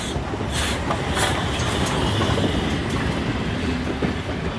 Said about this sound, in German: Die Zugfahrt nach Münchberg dauerte eine ganze Weile und zweimal drohte die kleine Lokomotive, in den Schneewehen stecken zu bleiben.